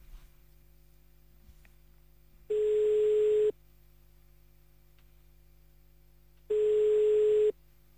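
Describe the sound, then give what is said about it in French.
French telephone ringback tone while a call is placed: two steady beeps of about one second each at the same mid pitch, separated by several seconds of faint line hum. “Bon, on appelle le mari d'Isa, en tout cas. Donc c'est parti, on y va, on appelle à 7h53.”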